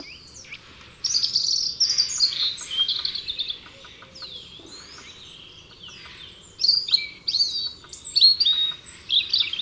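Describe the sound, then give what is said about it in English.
European robin singing on a branch of an oak tree in autumn: thin, high, warbling phrases in two bursts separated by a short pause, over a steady low background hum. “Perched on the branch, there are two colourful birds, a quiet robin singing a melancholy tune,”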